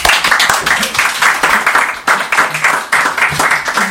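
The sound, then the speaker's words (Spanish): Audience applause greeting a guest introduced on a comedy show, loud and busy clapping that surges in uneven waves, with a couple of sharp dips before it swells again. “Un aplauso, por favor.”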